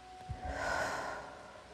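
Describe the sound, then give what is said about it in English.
A single deep breath in during a guided confidence meditation: a soft, airy inhalation that swells smoothly and then tapers away. It is faint and heard alone, without speech. “Breathe in deep.”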